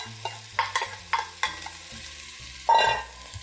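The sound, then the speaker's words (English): Minced ginger and scallions sizzling in hot oil for a Cantonese-style stir-fry, with several scraping stir strokes of a utensil and a louder burst of sizzling near the end, no voices. “Here goes my minced ginger. Stir that up. Get it good and cozy with the oil. Here are my scallions.”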